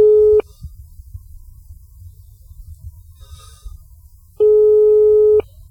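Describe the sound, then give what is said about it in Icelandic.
Telephone ringing tone on a radio call-in line: two steady, buzzy mid-pitched tone bursts about four seconds apart, the first cut short at the start, with quiet low hum between them. “síminn farinn að hringja heyri ég þannig að við skulum bara opna það”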